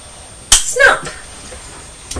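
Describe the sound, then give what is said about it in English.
A sharp plastic snap as a clasp is pressed shut on a toy train, one crisp click followed by a brief rustle, then a smaller click near the end. “There we are, we've put the clasp through there. And then you snap it shut.”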